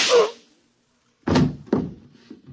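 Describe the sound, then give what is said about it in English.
Gunshot sound effects ring out in a radio drama: one sharp burst, about a second of silence, then two heavy, dull shots in quick succession with a fading tail. “And just one more shot for good measure, to make sure you're really dead.”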